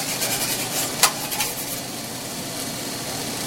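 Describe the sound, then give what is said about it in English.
Eggs fry on a clean grill with a continuous, even sizzling hiss. A brief light clink of a utensil sounds near the first second, and no one speaks. “You gotta make sure this grill is really, really clean, because the eggs will stick. I do all my eggs on the grill instead of in a pan.”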